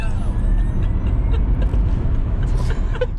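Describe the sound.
Loud, steady low rumble of a Tesla Model S Plaid electric car accelerating hard, a continuous dense road and drivetrain roar that holds level throughout.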